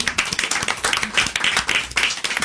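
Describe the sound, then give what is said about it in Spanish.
Short burst of audience applause at the close of a live music session: steady, energetic clapping from a small crowd, loud and continuous for a few seconds. “Muchas gracias y un aplauso.”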